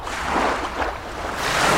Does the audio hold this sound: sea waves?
yes